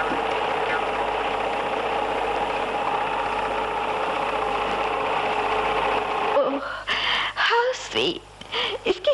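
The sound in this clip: A newly bought sewing machine runs with a light, steady mechanical drone for about six seconds, then stops as people begin talking.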